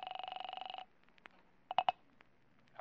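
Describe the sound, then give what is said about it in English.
A telephone being dialed: a loud, rapidly pulsing buzz tone with a steady pitch, then near-silence broken by a few sharp clicks. “I dialed the second number she'd called.”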